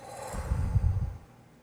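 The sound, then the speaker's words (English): A single forceful exhale, with breath pushed out in a low, rushing puff that lasts about a second and then fades. It is heard alone, without speech. “So breathe in. Grab all of that energy in a ball, put it on your throat, and breathe it out.”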